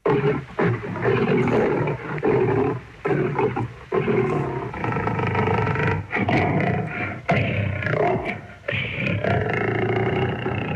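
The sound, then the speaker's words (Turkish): A lion roars and growls in a long series of deep, rough bursts with short gaps between them. The sound is loud and continuous throughout, with no voices. “Aslan böyle kükreyip homurdanarak kara kıta Afrika'ya çağırdı beni.”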